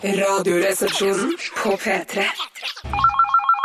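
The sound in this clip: Telephone ringing for an incoming call: a trilling electronic ring with warbling pitch enters after people talk and plays alone in the final second.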